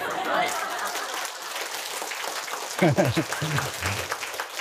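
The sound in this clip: Audience applause breaks out during a talk about skiing, a steady patter of many clapping hands. Partway through, a man's voice begins speaking over the continuing applause.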